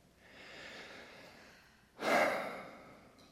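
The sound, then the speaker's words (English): One deep breath taken during a guided relaxation rises sharply in a soft, airy rush and then tapers off, heard alone over a faint background hiss. “Can everybody just close your eyes and just take a deep breath?”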